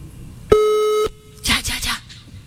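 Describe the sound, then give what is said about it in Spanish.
A phone voicemail tone: one steady electronic beep lasting about half a second, followed by a few short, softer bursts of noise. “Suena correo de voz.”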